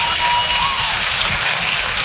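An audience claps at a live stand-up comedy performance, dense continuous applause at an even, moderate loudness throughout.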